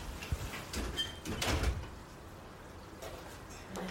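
A door slides shut at home, giving a few soft, brief scrapes and knocks, quiet overall.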